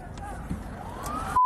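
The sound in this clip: An ambulance siren wails and climbs in pitch through loud, busy noise, then ends in a sharp steady tone.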